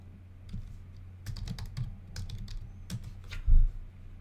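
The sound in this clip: A web address being typed on a computer keyboard: many quick, light key clicks in an uneven rhythm, with one heavier, louder keystroke near the end.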